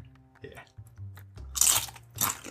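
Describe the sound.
Crunchy biting and chewing of food dipped in sweet salsa, with a couple of loud, crisp crunch bursts standing out over quieter mouth noises.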